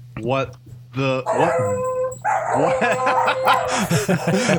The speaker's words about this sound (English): See, the dogs are even upset.